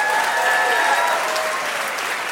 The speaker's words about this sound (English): Big round of applause for them, please.